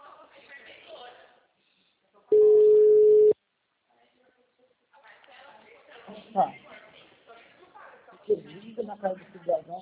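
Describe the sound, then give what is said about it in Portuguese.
Ringback tone of an outgoing phone call: a single steady, pure one-second beep, loud and even, set between stretches of quiet talk. “Tô ligando de novo, tá?”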